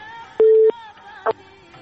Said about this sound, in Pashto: اخیرا ته قطع وصل راځي.